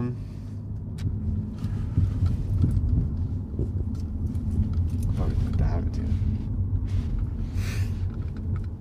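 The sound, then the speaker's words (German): A car pulls away during a driving lesson. Its low, steady engine rumble runs throughout, with people talking over it. “Jetzt fahren wir.”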